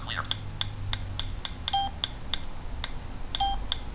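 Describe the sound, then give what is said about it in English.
Keypad beeps sound each time the validate key is pressed: two longer, steady high tones stand out among a regular run of short, sharp key clicks, over a low background hum. “every time you hear that beeps, that means I press the validate key.”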